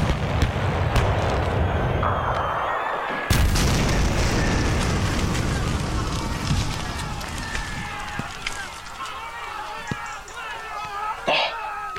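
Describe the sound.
Artillery gunfire and explosions on a battlefield: a sudden heavy blast stands out early in continuous rumbling, noisy din, with voices and scattered sharp cracks throughout.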